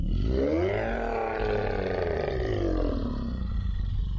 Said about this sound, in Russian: Из глотки твари, в которую превратился эльфин, раздался жуткий рев.